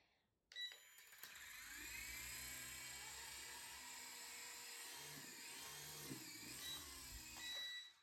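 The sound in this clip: Whirring, buzzing rotor and motor whine from a small remote-controlled toy helicopter flying indoors toward the ceiling, hard to steer. A steady high-pitched drone with wavering pitch starts after a brief click and runs almost to the end, loud and without talk.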